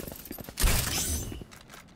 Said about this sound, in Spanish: ¡Que es una escopeta! ¡No puedes fallar!